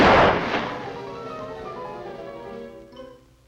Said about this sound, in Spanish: ¡El forajido Poncho le disparará al malvado conejo con su pistola de agua!